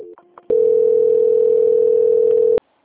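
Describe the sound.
A telephone tone during a call transfer: a loud, steady, unbroken tone of about two seconds that starts abruptly and cuts off sharply, leaving silence.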